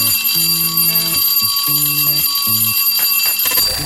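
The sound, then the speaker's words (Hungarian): Electronic ringing bell signal announcing a listener's message: a string of short stepped tones in a repeating melodic pattern, loud and steady over constant background hiss, with no voices. “Jól hallottad! Ez a csengő hang volt a jeladása jelentkezése.”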